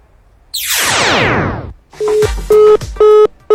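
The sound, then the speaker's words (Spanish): Telephone tones after a dropped phone call: a loud, falling electronic sweep, then a series of short, evenly spaced beeps of one steady pitch. “Bueno, ya se cortó, creo, la llamada.”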